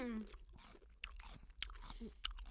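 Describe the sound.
Crunchy snack being chewed while it is tasted, giving faint, irregular crunching and mouth sounds with brief bits of talk mixed in.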